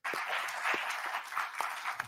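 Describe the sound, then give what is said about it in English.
An audience applauds, a faint, steady patter of many hands clapping alone throughout. “Why are they clapping?”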